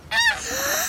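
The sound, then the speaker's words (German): A goose gives a single loud, harsh, nasal honk that lasts nearly a second, with no talking. “Das ist eine Gans.”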